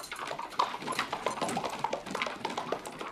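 Hooves clip-clopping as a horse-drawn carriage departs: a steady, rapid stream of overlapping hoofbeats over a rough rolling noise. It stays at an even loudness throughout, with no talk.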